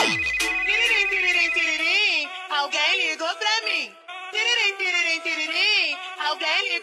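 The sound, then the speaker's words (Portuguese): A phone ringtone plays a loud, continuous melodic electronic tune of wavering tones, with a short drop in level partway through before the tune resumes. “Esse é o telefone do GW.”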